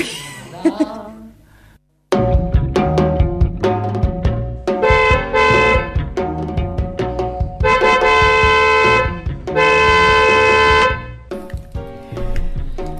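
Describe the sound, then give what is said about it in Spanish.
Car horns blare in a 9 p.m. horn-honking protest in support of residents of Jáchal and Iglesia. Several long, sustained honks overlap with shorter toots between them, loud and steady for most of the stretch. “Ahí está, suena el bocinazo desde acá, desde la colectiva, acompañando a los pobladores de Hachal y de Iglesias”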